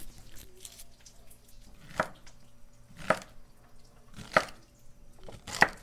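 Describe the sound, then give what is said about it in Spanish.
Knife peeling and chopping pacaya palm flowers for a salad, with a few sharp, crisp cuts spaced about a second apart standing out over faint, quiet handling noise. “la pacaya, a pelarla y a picarla y ponérselo en ensalada.”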